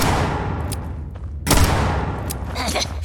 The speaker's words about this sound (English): Oh no, I gotta reload! It's a good thing I can absorb a number of bullets.